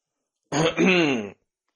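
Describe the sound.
A single short throat clearing as a man readies himself to address two cultivator monks guarding a teleportation formation, a voiced rasp under a second long, heard alone.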